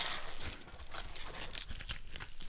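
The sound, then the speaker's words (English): Packing tape being ripped during an unboxing: a steady, scratchy crinkling and tearing noise lasting a couple of seconds, with a few sharper crackles along the way. “The tape has now decided not to rip, and so I have to rip. I told you that tape is going to kick your ass today.”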